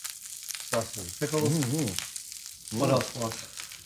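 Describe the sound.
Food sizzling as it fries, a steady hiss and crackle heard while it is flipped, running through the whole stretch beneath intermittent voiced sounds.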